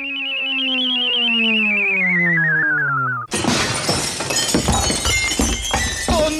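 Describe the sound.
A glass window pane at a police station shatters: a long, loud, whistle-like tone slides steadily downward in pitch, then cuts into a sudden crash of breaking glass with dense, scattered tinkling debris continuing to the end.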